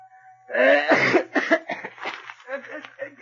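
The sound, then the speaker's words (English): A man's coughing fit mixed with throat clearing: a few rough, harsh bursts up front, then shorter hacking coughs and throaty rasps that continue loudly to the end. “Good Lord, Wineglass, if you've got bronchitis, why don't you go to a doctor? Oh, I'm sorry, Colonel. There's something in my throat. How can anybody read with that racket?”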